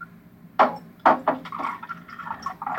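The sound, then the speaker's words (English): Liquor is poured into a glass: a few quick gurgling splashes lead into a steady, fairly loud trickle of liquid. “I just hear the liquor just pouring.”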